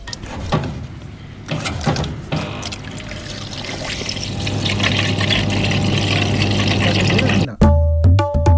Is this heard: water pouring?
yes